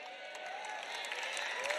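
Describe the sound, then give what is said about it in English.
A church audience claps during a sermon on tithing, a soft, steady patter of many hands that holds evenly throughout. “That's all the tithers that are clapping, by the way.”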